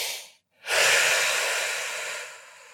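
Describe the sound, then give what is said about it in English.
Loud, airy breathing as someone breathes in through the nose and out through the mouth: one breath trails off, a brief silence follows, then a long, strong rush of breath slowly fades away. “Breathe in through the nose. That's true. Out through the mouth.”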